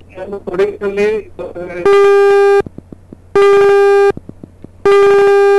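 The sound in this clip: Telephone busy tone after a dropped call on a phone-in farm program: three loud, steady beeping tones in a regular on-off pattern, following a brief stretch of talk at the start.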